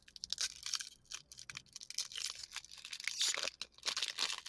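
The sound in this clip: A wrapper crinkles and tears as a peanut butter and chocolate cocoa-cream candy bar from Spain is opened. Many fairly quiet, crisp crackling bursts follow one another.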